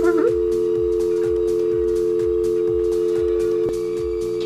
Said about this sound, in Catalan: Som-hi. Anem a trucar.